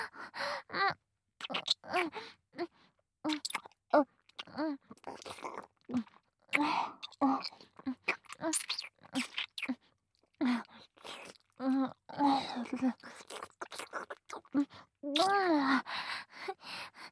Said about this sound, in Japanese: それじゃあ、先生のファーストキス、いただきますね。